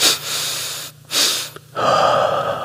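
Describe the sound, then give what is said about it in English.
Breathing in a physiological sigh exercise: two quick inhalations through a short pause, then one long, steady exhalation. The breaths are clear, airy and alone, with no talking. “I want you to just breathe, just breathe.”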